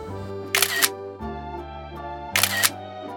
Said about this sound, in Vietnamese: Bọn mình cùng chụp với nhau vài kiểu ở đây nhé